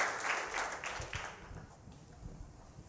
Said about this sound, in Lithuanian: Ponios ir ponai, plojimais pasitikime krepšinio komentatorius Vaidas Čiaponis.